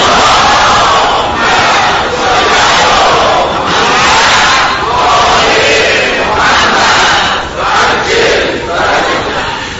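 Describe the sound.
A large crowd loudly chants salawat blessings in unison, a dense, continuous roar of many voices that swells and dips in waves for about ten seconds.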